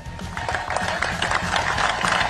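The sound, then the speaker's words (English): Sporty, celebratory baseball-style clapping at a championship celebration, a steady patter of claps with a rhythmic low thump running through it and no voices. “Good sporty, celebratory baseball clap. I like it.”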